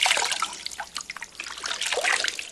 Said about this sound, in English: holds it above his head, and squeezes water out over his shaven scalp